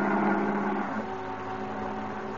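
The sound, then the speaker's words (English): A taxi cab's engine drones as it veers sharply around a corner and pulls up. The steady mid-pitched hum eases a little quieter after the first second. “His cab veers sharply around the corner and pulls up in front of a gloomy, old, rickety building.”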